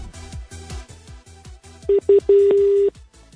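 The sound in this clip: Telephone dialing for a call: a few short electronic touch-tone beeps, then one longer steady tone, over a rhythmic background pulse.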